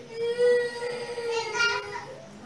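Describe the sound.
A child cries during a religious teaching session. A high, sustained whining wail wavers in pitch and swells again near the middle before tapering off.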